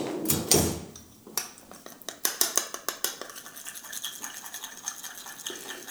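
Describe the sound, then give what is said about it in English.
A utensil clinks and scrapes against a bowl while mixing a ketchup and honey glaze, with many quick, irregular taps after a few louder knocks at the start. “Gotta love a good sweet glaze, and we'll mix that up.”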